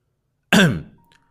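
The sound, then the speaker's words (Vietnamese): A man gives a single dry cough that turns into a throat clearing: one loud, rough burst that fades over about half a second, with no speech around it. “Chậm rãi đi đến trước cọc gỗ, Cát lão đại ho khan một tiếng nói.”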